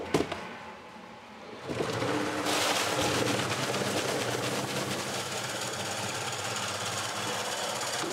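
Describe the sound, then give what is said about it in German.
A butcher's bowl cutter turned up to fifth gear, its knives spinning at high speed through sausage meat emulsion with ice: a dense, loud whirring roar that surges up after a quieter start and then holds steady. “Marian dreht den Kutter weiter auf. Im 5. Gang laufen die Messer nun auf hoher Drehzahl.”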